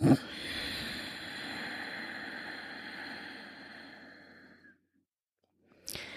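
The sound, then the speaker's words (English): Slow, steady breathing through the nose with the back of the throat contracted, giving a long, soft, hissing rush of air that fades out, then a brief silence before a new breath begins. “Inhale through the nose while gently contracting the back of your throat. And exhale slowly through the nose while keeping that throat contracted.”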